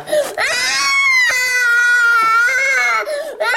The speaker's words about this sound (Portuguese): Já chega de chorar, está bem?